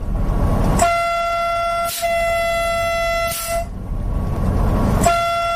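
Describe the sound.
A train sounds its horn in long, steady harmonic blasts over the continuous low rumble of the passing train. After a pause the horn starts again near the end.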